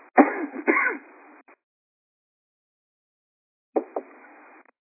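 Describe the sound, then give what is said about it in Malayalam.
Throat clearing and coughing from a man pausing during a spoken talk to control his cough, in two rough, breathy bursts separated by a stretch of silence. “ഇടയ്ക്ക് break വരുന്ന എനിക്ക് ചില വെള്ളമോ കുടിക്കുന്നത് കൊണ്ടും ചുമയെന്ന് control ചെയ്യാൻ വേണ്ടിയുമാണ്, എന്നെ ക്ഷമിക്കണം.”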